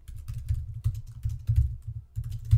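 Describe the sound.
Loud typing on a computer keyboard: rapid, heavy clacking keystrokes in uneven bursts with a brief pause partway through, with no voices.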